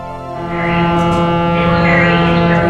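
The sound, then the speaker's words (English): Staten Island Ferry ship horn and engine: a deep, steady droning tone over a low rumble that swells slightly after the first half second, then holds continuously to the end. “Thank you for riding the Staten Island Ferry.”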